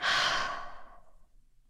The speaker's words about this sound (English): we'll end with one big deep breath in. And then give it a big sigh out.